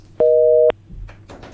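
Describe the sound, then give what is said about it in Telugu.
A single steady beep of a telephone busy tone after a caller's line disconnects, about half a second long and mid-pitched, followed by faint rustling noise. “మరి శ్రోత call అయితే cut అయింది.”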